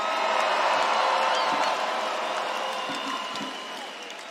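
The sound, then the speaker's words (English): A concert audience cheers and applauds at the end of a show, a dense, steady roar of clapping and shouting that slowly fades over a few seconds. “Thank you so much. Make some noise for yourselves.”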